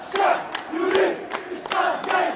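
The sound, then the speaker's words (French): A large crowd of demonstrators chants during a street protest in Algiers, their voices rising and falling in loud rhythmic phrases punctuated by sharp, regular accents. “La foule scande qu'elle veut un état civil, pas militaire, qu'elle demande le départ d'Ahmed Gaït Salah et qu'elle refuse les élections.”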